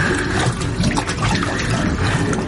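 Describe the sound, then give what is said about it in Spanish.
Water rushing in through a hole in a ship's hull, a steady, dense gushing and churning that holds at an even loudness for the whole stretch, with no voices. “Se está llenando de agua.”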